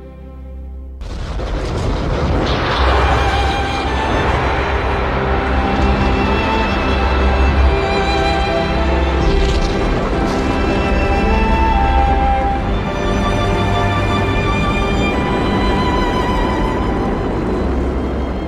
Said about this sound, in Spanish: El cohete despegó y se lanzó hacia arriba al espacio oscuro. Lanzó una estela de fuego y dejó atrás la Tierra